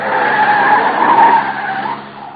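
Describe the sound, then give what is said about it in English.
A car skids through a handbrake turn, its tyres letting out a sustained, harsh screech for about two seconds that holds steady before fading at the end, with no voices. “Hang on, corner on the handbrake makes things kind of sudden.”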